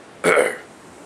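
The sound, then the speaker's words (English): A single short, rough throat clearing, a guttural burst that swells quickly and fades within about half a second, alone against quiet. “Not really bothering to hide his boredom, he cleared his throat.”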